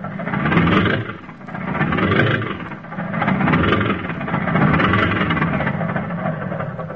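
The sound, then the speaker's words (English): Car engine revving hard with its wheels spinning, stuck in sand, rising and falling in several broad, rough surges of mid-pitched roar and whir without a break. “It's the sand. The wheels don't catch.”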